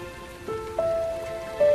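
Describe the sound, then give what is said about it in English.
Raindrops falling on a water surface make a continuous soft patter with a few brief louder swells. “Raindrops pepper the water's surface as the family stays close together.”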